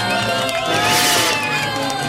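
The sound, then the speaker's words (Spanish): Crowd cheering and whooping in an ovation, a dense, steady roar sustained from start to end with shrill voices rising above it. “Ok, una ovación, Lucho.”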